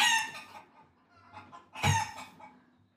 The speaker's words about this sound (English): so I'm here with my chickens